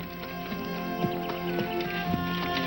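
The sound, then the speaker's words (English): Horse walking with a rider and a second person seated side-saddle in front, its soft, regular hoof clops sounding at an unhurried pace over a steady background hum. “He lifts her onto his horse, where she sits side saddle in front of him. His arms are around her as he takes the reins.”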